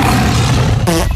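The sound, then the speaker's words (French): Comic sound effect of a lion roaring and breaking wind: a loud, rough roar fills the short clip, with a brief buzzy, tonal blast standing out near its end. “On a un animal qui pète tous les jours. C'était le lion aujourd'hui.”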